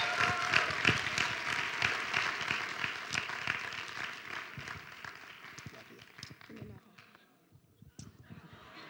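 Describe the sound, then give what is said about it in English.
Audience applause welcoming a speaker at a service: loud, dense clapping that gradually thins and fades, leaving a few scattered claps at the end. “Let's put our hands together and welcome Lady Judy Harvey as she comes.”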